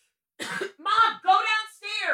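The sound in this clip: Someone clears their throat in about four short, rasping voiced bursts to shift a bubble caught while drinking iced coffee.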